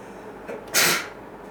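A single sharp, breathy sneeze bursts out after a brief faint intake, loud and alone with no talking around it.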